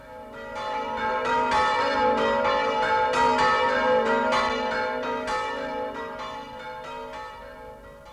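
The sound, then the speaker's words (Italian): Church bells ring in a dense, overlapping peal, with many strokes blending into a sustained metallic wash. The ringing is loud and steady, then eases off slightly toward the end. “Campane al vento, cantate, risuonino villotte nel piccolo compendio del mondo, Friuli. Il battacchio continuò a suonare”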